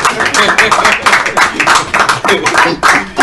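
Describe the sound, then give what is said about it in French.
An audience claps in a church, a quick run of sharp hand claps in a fairly steady rhythm, loud and bright, repeating for a few seconds. “Applaudissons pour le Isaac d'Edea. Applaudissons parce que vous êtes jaloux.”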